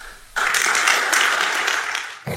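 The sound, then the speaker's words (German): An audience claps after a political speech by Steinmeier. The applause breaks out abruptly just after a quiet start, holds as a dense, fairly loud wash of clapping, then cuts off near the end. “Oh, das Klatschen hat mich gerade aufgeweckt.”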